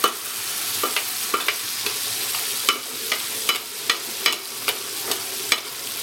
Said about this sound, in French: Là, je vais accélérer un peu le feu pour avoir un beurre noisette je vais venir arroser gentiment ma viande.